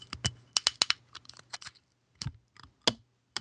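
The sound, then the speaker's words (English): Foil is peeled off the top of a bottle of carbonated 9.5% alcohol drink, giving faint, sharp crinkling crackles in irregular bursts. A quiet pause comes before a few last snaps. “So I'm peeling the foil off.”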